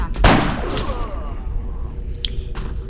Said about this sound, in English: Small laser. Sniper. That's the sniper rifle.